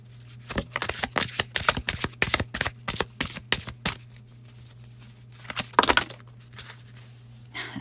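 Tarot cards being shuffled: many quick papery riffling bursts over about four seconds, a pause, then a few more riffles over a faint steady low hum, with no talking.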